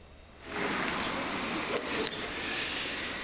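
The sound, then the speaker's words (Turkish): Doors of the France national football team bus opening at the team's hotel: a sudden broad pneumatic hiss that rises at once and holds steady, with two brief sharp clicks partway through, and no voices. “Fransa milli takım otobüsün kapıları açıldı.”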